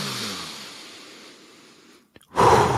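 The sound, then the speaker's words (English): A full, deep breath drawn into the stomach: a fading hiss drops to near silence, then one loud, forceful rush of breath fills the final moments. “A full breath like that”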